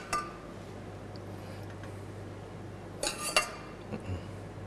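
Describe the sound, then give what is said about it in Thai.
A utensil clinks faintly against a pan as about 100 grams of pork is stirred with its own juices. A few light metallic taps come in a short cluster late on, over a quiet, steady background hum. “แล้วก็คนให้เข้ากันครับ”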